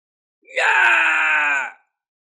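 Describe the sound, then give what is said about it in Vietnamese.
An anguished scream of agony rings out alone, a single sustained cry just over a second long that holds a steady pitch before cutting off. “Một tiếng hét thảm phát ra”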